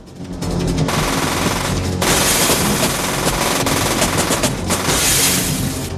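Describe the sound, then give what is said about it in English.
Heavy gunfire in a shootout around a truck: rapid, overlapping bursts fill the whole stretch, loud and dense with only brief dips, and no voices are heard. “He drops to the ground to fire a shot from behind one wheel.”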